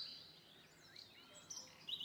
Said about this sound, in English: Birds begin to fly and squawk in fear and fly away overhead